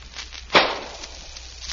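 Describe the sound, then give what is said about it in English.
A gunshot is fired into a cotton bale: a single sharp, fairly muffled report, followed by low, fading noise and quiet. “We're going to shoot a bullet out of a gun we took from Samuel Payton into that cotton bale.”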